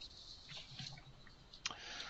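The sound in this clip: A single soft computer mouse click pressing Finish at the end of an Azure AD Sync setup on a Windows server, one brief tick over faint steady hiss.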